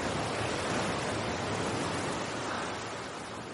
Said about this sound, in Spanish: Bajo los escarpados acantilados, Álvaro mira hacia las olas mostrándose exhausto. Visualiza algunas rocas que sobresalen sobre el oleaje.